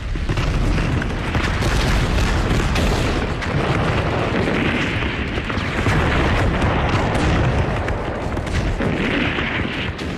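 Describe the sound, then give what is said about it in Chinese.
Massed artillery barrage, more than a hundred guns firing together: an unbroken, loud wall of overlapping booms and deep rumbling blasts that keeps going throughout with no pauses. “攻击令一发，一切开火。”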